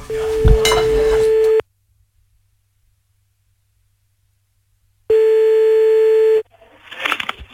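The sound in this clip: Telephone line tone while calling back: two long, steady buzzing tones, each over a second, separated by several seconds of silence, followed by brief faint line noise.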